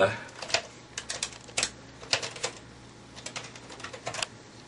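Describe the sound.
Keys clack on a computer keyboard in a quiet, irregular run of many light taps and short clusters, with a voice faintly in the background.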